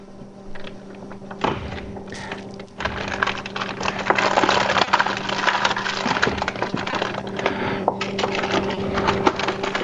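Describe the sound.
Brown sugar is stirred into a simmering pot, giving dense, irregular scraping and clicking with a few louder knocks near the start over a steady low hum.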